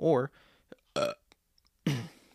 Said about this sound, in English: Burp. Nasty.